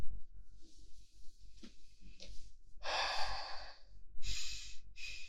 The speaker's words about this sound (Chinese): 我有点喘不上气，我深呼吸一下就好了。